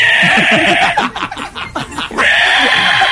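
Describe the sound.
A human voice imitates a pig squealing as its tail is pulled: a shrill, sustained nasal squeal, broken in the middle by a burst of choppy, snorting, laugh-like sounds before the squeal returns.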